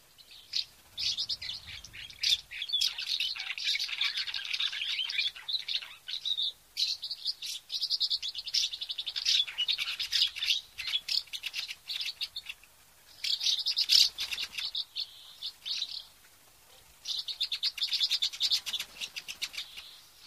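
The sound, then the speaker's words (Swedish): Swallows chirp and twitter in a dense, high-pitched stream of rapid calls, continuous with a few brief pauses, moderately loud and with no voices. “På vägen lyssnar vi på svalorna.”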